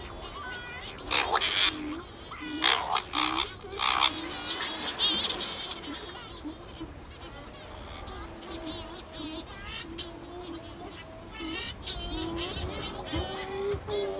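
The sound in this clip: Shearwaters call at their colony before heading out to sea, many overlapping wailing cries repeating steadily throughout, louder in the first seconds.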